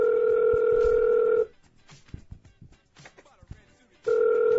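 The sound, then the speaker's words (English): Telephone ringing on a call: a loud, steady ringback tone with two pitches sounds, then cuts off into a quieter stretch of faint clicks and rustles before the same ring starts again. “What is this, 50 million rings? What the hell is this?”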